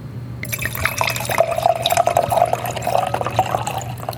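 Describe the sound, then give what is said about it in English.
Red wine, a 2013 Tempranillo reserve, is poured into a glass after a brief silence. The liquid trickles and splashes steadily with a faint ringing tone, continuous until the end and without talk. “Where's your glass? Pour some in here.”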